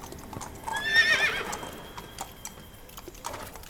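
A horse pulling a tanga cart on a dirt track neighs as the cart stops: a short, high whinny early on, over faint clopping and rustle.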